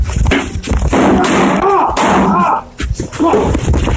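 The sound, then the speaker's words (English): Several sharp gunshots crack amid loud, overlapping shouting voices during a chaotic confrontation. “Shots fired.”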